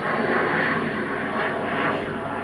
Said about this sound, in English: Airplane over here, I can't see it. I hear it, but I can't see